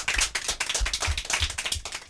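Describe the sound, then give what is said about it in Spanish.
Applause for a child: a small group claps in a brisk, fairly even rhythm, with many sharp claps rising and falling in loudness for the whole stretch. “Muy bien, ahora otro aplauso para ella, ¿verdad? Que lo ha hecho muy bien.”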